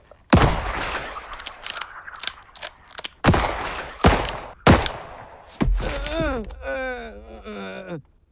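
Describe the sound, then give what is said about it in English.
Gunshots ring out in an audio drama: four sharp, loud cracks spaced a second or more apart, then another heavy hit followed by a pained, wavering cry of rising and falling pitch. “A bullet in each hand and one for both his kneecaps? You're taking it a bit personal, ain't you?”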